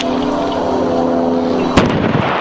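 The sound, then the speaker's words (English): A single sharp explosive boom, the first blast of a sequence producing a fireball, bursts out about two-thirds of the way through over a steady droning background with a low hum. “fireball! First explosion.”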